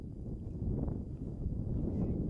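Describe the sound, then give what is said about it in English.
Strong wind swirling at a baseball field, buffeting the microphone with a steady, muffled low rumble that rises and falls slightly without pause. “You can hear that wind swirling, as Matt mentioned. Strong winds here today at Ernie Pejakowski Baseball Field at St. Joe Athletic Fields.”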